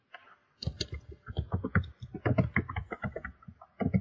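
Code is typed on a computer keyboard as many faint, quick key clicks in an irregular rhythm, with brief pauses between bursts.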